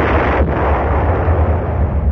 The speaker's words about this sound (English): It started off as a rather moderate explosion.